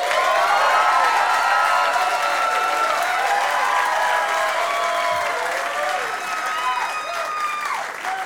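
An audience applauds as a singer and his band return to the stage: dense, steady clapping with scattered cheers and whistles, sustained loudly throughout and easing off slightly toward the end.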